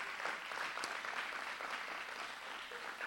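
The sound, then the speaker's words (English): A church audience gives a round of applause, a fairly faint, even patter of many hands clapping that continues steadily throughout. “Give Jaimie a big hand.”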